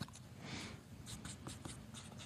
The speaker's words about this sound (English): Maybe you guys could talk a little bit while sure. I'm writing something down.